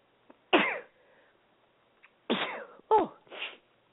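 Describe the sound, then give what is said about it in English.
A sharp, forceful sneeze on a live show, followed a couple of seconds later by a few more short, strong nasal bursts, all loud against near silence. “If it wasn't a live show, you guys wouldn't have heard that sneeze.”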